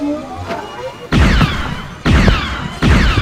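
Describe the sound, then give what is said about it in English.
Blaster fire in a Star Wars audio drama battle: loud volleys of zapping shots with whining, downward-sweeping tones over heavy booming impacts, hitting in three sharp surges after a quieter opening. “Everyone, take cover! Hey kid, hope you're good with a blaster. Make yourself useful.”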